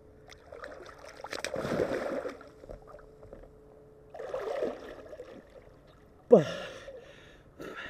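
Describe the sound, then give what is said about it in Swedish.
Splashing water as a person dives into cold water and swims under a raft, a few soft splashes and sloshes followed by one sharp, louder splash as they surface. “Så jag gör helt enkelt så att jag, jag tar ett dopp och eh, simmar under er, under den här flotten och så kommer jag upp på andra sidan.”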